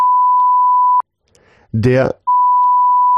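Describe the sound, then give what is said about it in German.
A steady, pure electronic beep tone at a mid pitch holds for about a second, breaks off for a short burst of speech, then resumes unchanged to the end. “Und deswegen gibt's jetzt einen Piepvogel der Woche, und zwar der Piep.”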